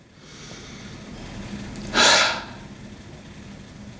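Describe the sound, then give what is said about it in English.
A single deep breath, a short breathy whoosh in the middle of otherwise quiet hiss, with no voice. “If you're mad and you know it, take a deep breath.”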